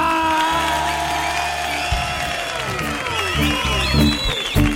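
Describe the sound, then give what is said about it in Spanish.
A large audience at the Auditorio Cartuja cheers and applauds with whoops, keeping up a steady, powerful roar that swells with sharper peaks toward the end. “querido público, público que hoy ha venido aquí en masa al Auditorio Cartuja, que suena así de potente”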